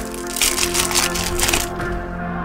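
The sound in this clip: Packs of football trading cards are torn open, with crackling wrapper rustles and sharp crinkles in uneven bursts, followed by a quieter tail.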